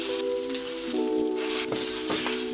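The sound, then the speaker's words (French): Meat sears in a little oil in a frying pan as it is browned on all sides, leaving the inside raw. A continuous bright sizzling hiss runs throughout, with a few brief louder crackles. “Tu vas prendre une poêle, déposer un peu d'huile et faire griller ta viande sur tous les côtés. Pas pour la faire cuire, mais vraiment juste pour griller l'ensemble, le tour de ta viande.”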